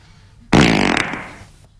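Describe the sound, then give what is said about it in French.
A single loud, drawn-out fart bursts in abruptly and rumbles for about a second, gradually fading out, with no talking over it. “Je peux péter? Ouais, vas-y.”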